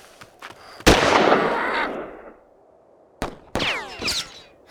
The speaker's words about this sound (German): Woher kommen die Schüsse? Offensivfeuer von hinter der Kirche.